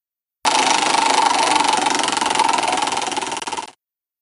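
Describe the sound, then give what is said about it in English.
A prize wheel spins in a question game: a dense, rapid run of ratcheting clicks that holds steady and fairly loud for about three seconds, then fades away at the end, with no voices. “let's spin the wheel here.”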